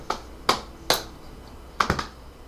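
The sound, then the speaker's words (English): Hands slapping and clapping: sharp, dry slaps, three spaced apart and then a quick cluster of three, crisp and fairly faint against a quiet background with no talk. “as you see the hands are slapping and clapping and making noises before it immediately rolls at you.”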